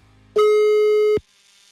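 A telephone tone after dialing: one steady, unbroken electronic tone with harmonics that holds for just under a second, then cuts off cleanly. No voices are heard over it.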